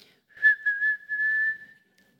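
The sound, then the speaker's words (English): A woman whistles to imitate the moon whistling: a high, thin note that flutters briefly at first, then holds steady before fading out, quiet and with no other sound. “And then she sang about the moon whistling,”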